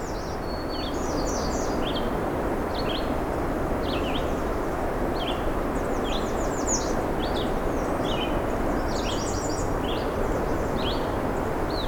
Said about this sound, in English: wow, pileated woodpecker.